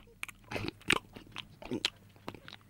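Chewing on a chewy caramel nougat candy: a few moist, crunchy bites and chews in irregular bursts, with no talking.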